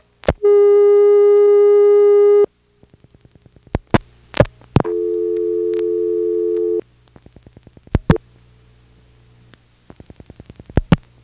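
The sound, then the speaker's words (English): A telephone call dialed with one extra digit on an NX1D switch: a steady tone, bursts of quick dial-pulse clicks, a second lower steady tone, then more scattered click bursts. “Let's try calling Goldston and I'm going to dial one extra digit and see if it gets dialed out.”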